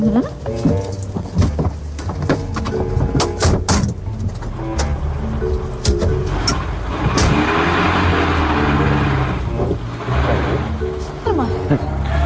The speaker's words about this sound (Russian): марш в машину. Шофер ждет. Поехали.